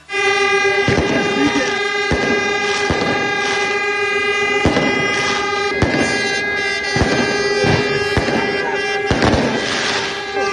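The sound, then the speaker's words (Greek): Fireworks bang repeatedly at a welcome reception in Lamia: loud, sharp bursts at irregular intervals over a continuous, steady blare of horns. “Εκεί στη Λαμία, μάλιστα, του έγινε και μια εντυπωσιακή υποδοχή με πυροτεχνήματα.”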